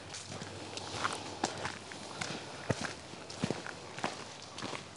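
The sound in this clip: Footsteps of a person walking through a forest make many soft crunches and thuds in an irregular walking rhythm over a low, steady outdoor background.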